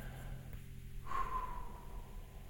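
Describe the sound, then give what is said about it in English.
One soft, slow exhale during a guided breathing exercise, a faint breathy rush over quiet background. “Are you ready? Take a nice exhale. Let's just gently get out what we have.”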